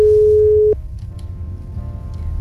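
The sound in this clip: A telephone ringback tone sounds during an outgoing call: one loud, steady, even-pitched tone that cuts off abruptly, leaving faint line hiss.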